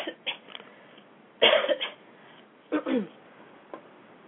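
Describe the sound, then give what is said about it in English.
A person with a cold coughing a few times, one sharp, loud cough standing out in the middle, with softer, throaty coughs and faint breathy sounds around it. “I do beg forgiveness from the audience for my being sick. I know that it's probably not very pleasant to listen to somebody cough during the entire Regia show”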